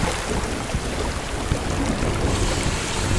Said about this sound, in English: activate the water hose kit. Water hose ready, sir. Great. Now point it at the machine and turn on the water.